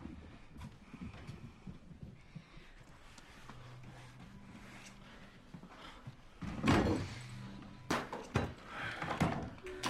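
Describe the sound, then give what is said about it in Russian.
A door is closed by a young woman as a man enters a room in a foreign film scene: a few soft knocks and handling sounds lead to a louder thud and clatter, followed by more scattered bumps. “Он входит в комнату, и девушка закрывает дверь.”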